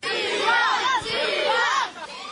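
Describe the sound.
Students and teachers chant slogans at a school protest over cold classrooms in Poti. Loud, shouted unison voices repeat short phrases in a rhythmic pattern, with brief dips between phrases.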